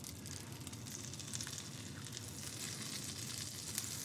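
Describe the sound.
A tuna melt sandwich with Dijon sizzles in a hot skillet, giving a steady, soft crackling fry that holds evenly throughout.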